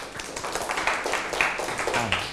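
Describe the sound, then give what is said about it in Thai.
Classmates clap for a friend during a Thai-language lesson: a steady patter of many overlapping hand claps, moderately loud and continuous throughout, with no clear pauses between them. “ปรบมือให้เพื่อนถูกต้องครับ”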